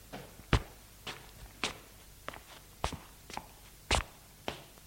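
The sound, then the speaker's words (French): Footsteps of a man walking: nine slow, steady, fairly soft steps, each a sharp tap, spaced evenly across the stretch with nothing else over them. “Il se lève et marche.”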